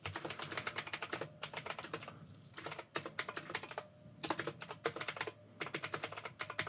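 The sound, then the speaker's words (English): Rapid typing on a computer keyboard, keys clattering in several quick bursts with brief pauses between them. No voices are heard. “so I just typed in all your details.”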